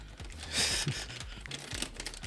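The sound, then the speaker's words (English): Crinkling and tearing of a bag of barbecue chips being ripped open, with a bright rasping burst early on followed by scattered quieter crackles and rustles, all fairly faint. “I can't open this damn thing. All right. Got to rip it off.”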